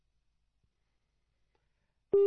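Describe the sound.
A telephone tone sounds after a caller's line drops on a phone-in call. Near-silence gives way to a loud, steady, sustained tone that begins abruptly and runs to the end.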